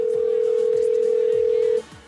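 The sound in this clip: Steady telephone dial tone heard while a call is being placed: one continuous, even mid-pitched hum that holds unchanged, then cuts off abruptly just before the end.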